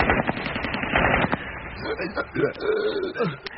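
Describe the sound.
Rapid gunfire in a radio drama battle scene: a dense, loud rattle of shots through the first second or so, then fading as people talk over it.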